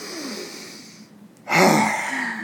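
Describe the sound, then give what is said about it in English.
A deep breath taken at a desk after lifting and dropping the shoulders to release tension: a strong, breathy rush that begins abruptly after a brief lull and stays full to the end, with no talk. “I'd lift up my shoulders and drop them a couple of times like this, and then take a deep breath.”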